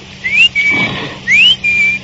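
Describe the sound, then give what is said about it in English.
A person whistles in imitation of a cuckoo-style clock bird, with four quick phrases alternating upward-sliding chirps and steady high held notes, clear and alone. “My father had a clock that told the time with a bird jumping out. The bird whistled, like this.”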